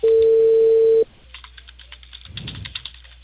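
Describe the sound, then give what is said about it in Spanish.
A telephone tone sounds after a dropped call: one loud, steady, unbroken tone lasting about a second before it cuts off. Faint keyboard typing clicks follow, with a short cluster of rustling near the end. “Aló, ¿se cortó la llamada? Sí, se cortó.”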